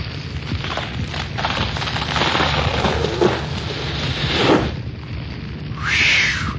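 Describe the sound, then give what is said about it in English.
A staircase collapses in a burning building as a radio drama effect: a loud, sustained roaring crackle with heavy rumbling surges building and falling, and a brighter hissing burst near the end. “Whew. I'm glad that didn't happen while I was on it. That whole staircase collapsed.”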